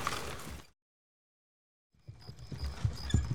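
Clip-clop of hooves as a horse-drawn wagon carrying a crew with gear and rifles rolls along a bumpy, winding camp road under tall firs, with a rumble of wheels. The sound breaks off into a second of silence, then resumes with irregular thumps.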